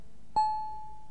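A doorbell chimes once at a house door, a single clear struck tone that rings on steadily and slowly fades, with no voices.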